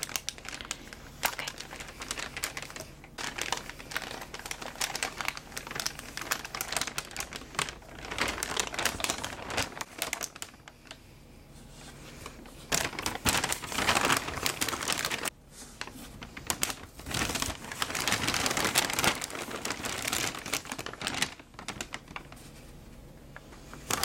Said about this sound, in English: It's a sturdy bag that I think will be great for you to carry with the heavier books here. So let me go ahead and put the books in first, and then I'll put the journal in as well.